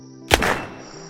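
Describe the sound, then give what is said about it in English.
A single gunshot fired at a rabbit outdoors, one sharp heavy crack with a short decaying tail, followed by a quiet steady hum. “What did you shoot at?”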